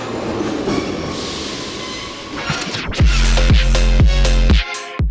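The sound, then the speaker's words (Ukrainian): A metro train at Derzhprom, an underground station in Kharkiv: a steady rushing roar, then loud rhythmic wheel clatter and a brief screech before it suddenly cuts out. “станція Держпром. Це станція Держпром. Щотижня ми вирушаємо у подорож. Інколи це кілька станцій під земкою по Харкову.”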